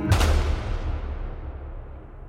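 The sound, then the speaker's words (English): A single rifle shot in a Wild West clash with soldiers: one sharp, loud crack at the start, then a long, low rumbling tail that slowly fades away. “when he raises a rifle high above his head and shakes it, the soldiers don't give him the benefit of the doubt. They scramble to take aim, but then there's a single shot from his weapon.”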